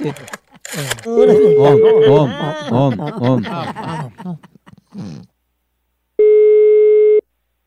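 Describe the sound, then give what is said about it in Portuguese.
A steady electronic telephone tone sounds once for about a second while a call is being placed, following a stretch of lively talk and laughter. “Vou ligar agora pra Clabiano.”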